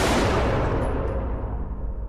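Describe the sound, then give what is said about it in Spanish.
A single gunshot fired inside a house: a loud, full-bodied blast at the very start that rings on and decays slowly over about two seconds into a fading tail. “justo al abrir la puerta oí un disparo dentro”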